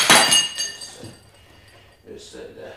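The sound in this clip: Glass bottles of gin and port clink as they are handled, with a bright ringing knock at the start and a few fainter rattles after it, while a voice speaks.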